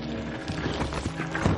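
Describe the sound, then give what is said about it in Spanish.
Hooves clip-clop as a winged, horse-like creature arrives carrying two riders, giving a few fairly faint, uneven hoof strikes with no talk over them. “Bill Weasley y su novia llegan montados en un cestral”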